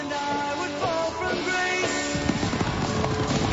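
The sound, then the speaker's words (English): Racehorses gallop off around a racetrack after the starting gate rises, a rapid rumble of thudding hooves that grows denser in the second half, heard under sustained music. “At a racetrack, the starting gate rises and the competitors gallop off around the track.”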